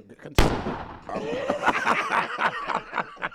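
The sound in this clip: A single sharp gunshot sound effect from a rap music beat cracks out, followed by voice sounds and snickering.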